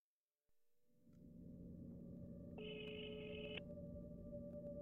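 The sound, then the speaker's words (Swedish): A telephone call being placed from Stockholm: a faint line hum and rumble come first, then a single steady electronic ringing tone sounds for about a second before the hum continues. “Det här avsnittet börjar vi med att ringa ett samtal.”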